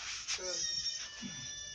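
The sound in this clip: A little cat meows in a few short, faint, bleating cries spread over under two seconds, each brief and tonal.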